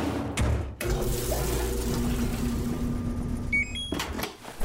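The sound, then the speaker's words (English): A washing machine fills with water, giving a steady rushing hiss with a low hum underneath. A few short electronic beeps sound before the flow stops. “Those are the sounds of your spring cleaning with a new laundry set featuring large capacity and innovations to make laundry day quicker and more efficient.”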